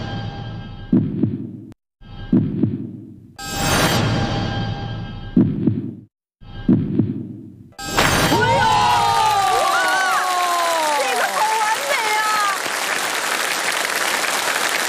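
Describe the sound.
A whip, folded in half, cracked during a stage performance: a run of loud, sharp cracking bursts, then sustained applause and cheering from a crowd.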